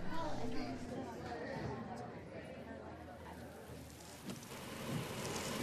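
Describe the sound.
Rain falling in a steady, dense wash of hiss and patter that swells slightly and stays level throughout.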